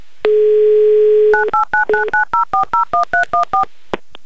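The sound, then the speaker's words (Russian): Telephone number being dialed with DTMF tones. A steady dial tone sounds first, then breaks into a quick, even series of many short beeping key tones at varying pitches, all loud and alone, ending with a faint click. “Набираю ваш номер.”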